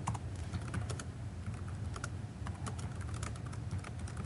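Code being typed on a computer keyboard: many rapid, uneven keystrokes clatter steadily throughout with no pauses and no voices.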